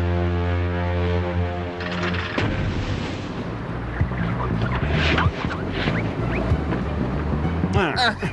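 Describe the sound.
A ship's horn sounds as one deep, steady blast lasting about two seconds. A long stretch of rumbling, wind-like noise follows, with scattered bursts, and brief voices come in near the end.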